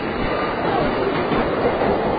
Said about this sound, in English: That's our train going in the other direction.